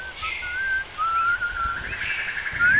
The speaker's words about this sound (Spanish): Silba. Silba.